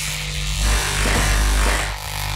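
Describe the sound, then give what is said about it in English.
Electric shaver buzzing steadily while shaving a person's head: a continuous low, droning hum with a harsh edge that swells louder through the middle stretch, then eases slightly toward the end. “Oh! And I'm gonna shave my head. Just hair.”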